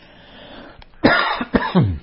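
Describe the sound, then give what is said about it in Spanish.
Coughing from someone with a lingering cough: a few sharp, harsh bursts in quick succession, with a faint throat sound just before them. “Sigo con tos, ustedes me disculparán.”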